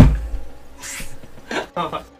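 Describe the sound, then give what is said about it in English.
A cat scratching inside a dresser makes a few short, raspy bursts of scraping. They come in quick, uneven spurts with quieter pauses between them. “The cat's in the dresser scratching.”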